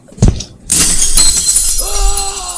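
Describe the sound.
Window glass shatters as a video game character jumps out through it. A brief thump comes first, then a sudden loud crash of breaking glass with bright tinkling debris that fades under sustained tones.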